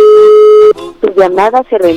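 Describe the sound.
A ringback tone on an outgoing telephone call: one long, steady, mid-pitched tone with bright overtones. It stops abruptly and a voice starts talking.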